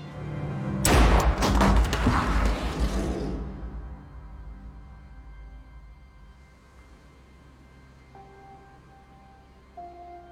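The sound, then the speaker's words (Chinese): A single loud gunshot from a pistol that a judge fires at himself in a mystery drama erupts near the start and decays into a long, fading rumble. Faint, steady tones linger quietly afterward. “法官秉承着无人生还的想法，拿着小白用过的手枪回到了客厅。他擦掉枪上的指纹，垫着手绢给自己来了一下。”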